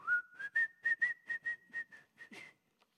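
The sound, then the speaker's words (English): Melodic whistling from a person: a bright run of many short, clear notes in a quick, tuneful rhythm, gliding slightly upward at the start, then steady before ending on a final note and a brief tail. “he starts to whistle. He sings in delight.”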